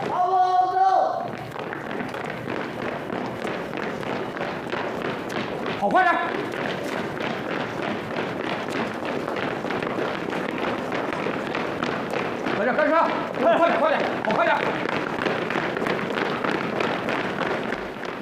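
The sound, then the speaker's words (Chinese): Soldiers run laps in formation around a parade ground. Many rhythmic footfalls thud steadily throughout, and raised voices shout over them. “列队，围着操场跑，没有5公里，谁不许停下来？”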